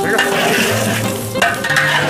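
Food stir-fried in a pan, being turned and pushed with a spatula, with a loud, continuous sizzle and scraping, stirring sounds throughout.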